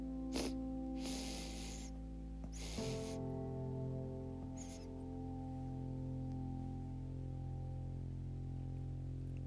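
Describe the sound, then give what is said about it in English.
Deep breaths drawn in during a breathing exercise: a few airy, rushing inhalations, two of them longer and fuller, then a fainter one. They sit over a steady, sustained drone of held tones, with no talk. “When you think you're at the top of your breath, take a couple more deep breaths.”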